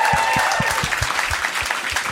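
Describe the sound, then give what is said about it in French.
Audience applause fills the whole stretch: dense, steady clapping from many hands at an even, fairly loud level, with no voices over it. “Ouais, ben vous pouvez applaudir, là.”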